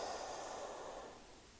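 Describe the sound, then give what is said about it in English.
A deep cleansing breath drawn in during a guided breathing exercise: a soft, airy rush of inhaled air that holds steady, then tapers off over about a second and a half. Faint and alone. “a couple cleansing breaths in, and here we go. Exhaling out. So I breathe in.”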